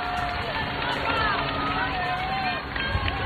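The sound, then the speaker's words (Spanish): Street crowd in Madrid during Pope Leo XIV's popemobile parade, a dense din of many voices and movement, with a few high whistling tones rising out of the steady hubbub. “Esto que están escuchando ahora mismo es señal en directo. En este momento León XIV está dando un paseo por las calles de Madrid en Papamóvil.”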